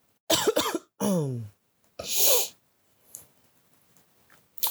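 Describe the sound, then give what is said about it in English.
Coughing from smoking a hemp wrap: a few harsh, loud coughs in quick separate bursts, followed by a fainter breathy sound, with no talk. “this got me coughing because I got it in the hemp wrap.”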